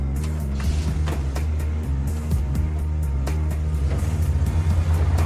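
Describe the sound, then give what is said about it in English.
A brown coupe car driving off, its engine giving a steady low drone with a rough, throaty texture that holds at a fairly constant loudness throughout. “He gets in the car and motors off.”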